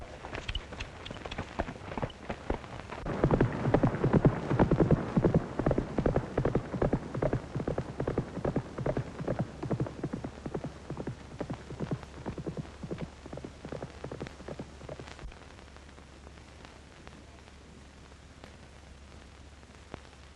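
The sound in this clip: Hoofbeats of the racehorse Blue Knight breaking from the gate at a morning workout, a fast rhythmic clip-clop that builds loud, holds steady, then thins and fades toward the end over a low hum.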